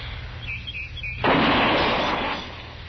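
A single rifle gunshot fired with the gun steadied on a fence rail, a sharp, loud blast followed by a long rolling decay, with faint bird chirps before it.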